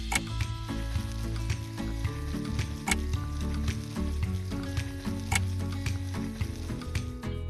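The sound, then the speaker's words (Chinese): Food sizzles as it pan-fries in salad oil, a continuous hiss dotted with many sharp crackles and pops. The level stays fairly even throughout, with no talk. “好了，现在可以煎”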